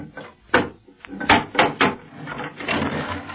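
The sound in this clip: A wooden box of nails being opened: a few sharp wooden knocks and creaks in close succession, followed by a longer rough scraping rattle at the end.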